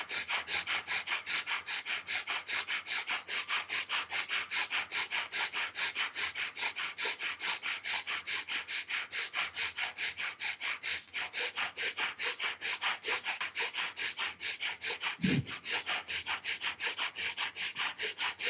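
Bhastrika yoga breathing: forceful, rapid inhales and exhales repeat in a steady, fast rhythm of many breathy rushes. The pace stays even and the loudness moderate throughout, with no talking.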